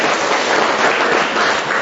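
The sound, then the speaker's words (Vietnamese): Applause from a church audience, a dense, steady wash of many hands clapping together that holds at an even, fairly loud level throughout, with no voices over it. “Rồi tạ ơn Chúa, một tràng pháo tay thưa anh chị em.”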